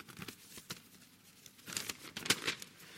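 Paper rustling and tearing as a paper letter is opened, a run of crinkly crackles with several sharper tearing bursts toward the end, with no talk.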